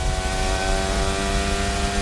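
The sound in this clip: Formula 1 engine whine from Oscar Piastri's car at the 2026 Belgian Grand Prix, a loud, steady, high-pitched howl that holds throughout with no voices.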